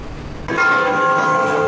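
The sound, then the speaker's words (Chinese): Bells ring in a city park in the morning. Ringing, sustained tones with several overlapping pitches enter abruptly after a short stretch of noise, then linger loudly to the end without speech. “上午9点，五大道公园在钟声中醒来”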